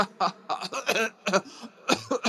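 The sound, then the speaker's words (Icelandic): Coughing from someone with a cold comes as a rapid run of short, harsh, throaty bursts in uneven clusters, some with a voiced rasp, and no clear speech around them. “Vá, ég hósta. Þetta kvefur ekkert grín.”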